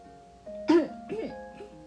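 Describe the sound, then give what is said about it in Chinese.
A man's dry cough, told within a Chibi Maruko story: a couple of short, throaty coughs, the first the loudest, followed by a softer trailing rasp. “然后他又干咳了几声”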